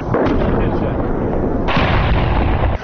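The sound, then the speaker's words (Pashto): Heavy artillery cannon fire from a gun set up on the edge of a police training centre near Lashkar Gah city, heard as dense, loud, continuous booming and rumbling with no clear gaps between shots. “دا هغه ډی سي توپ دی چې تازه حکومتي مسؤلینو د لښکرګاه ښار اړوند د پیرسابز کلاب او باباجي د امنیتي کمربند ساتلو لپاره د پولیسو د تعلیمي مرکز په وڅنډه کې ځپځا کړی دی”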